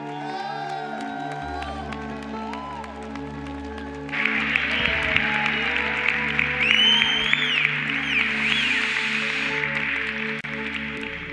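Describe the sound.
An audience applauds to welcome a pastor at a church service. Clapping and cheering swell sharply partway through, with a few whoops, while sustained musical tones hold steady underneath.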